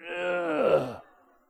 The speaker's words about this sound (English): Now that will cause you to groan. Okay, on three, everybody groan.